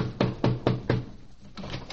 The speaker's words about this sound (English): I think I'll knock on the door.